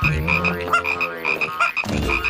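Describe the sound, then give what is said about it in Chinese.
Little frogs croak in a rapid, loud chorus of bright, rattling, high-pitched calls, many overlapping notes pulsing quickly without pause. “是那些小青蛙，他们太害怕了，就一路跳到镇上了。”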